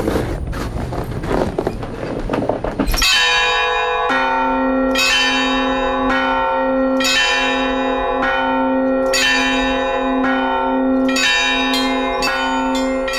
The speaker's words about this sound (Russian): Нынешний колокольный набор кажется попросту миниатюрным в сравнении с прежним. И чтобы справиться с ним, нужны лишь 2 звонаря.